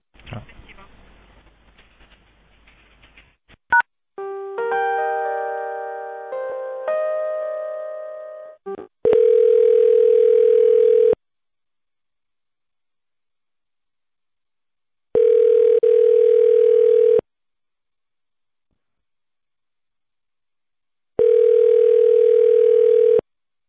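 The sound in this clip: Telephone tones play while a call is being transferred. A noisy opening leads into a short melodic sequence of tones, then three long, steady mid-pitched tones with silent gaps between them.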